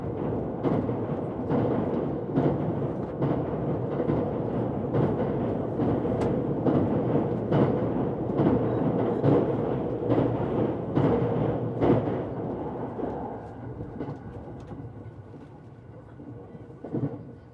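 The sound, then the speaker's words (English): A Shinkansen bullet train crosses a bridge between Kyoto and Kanazawa, Japan, with a loud, continuous rumble under rapid, regular clatter that eases slightly toward the end. “That was the sound of crossing a bridge while travelling on the Shinkansen from Kyoto to Kanazawa”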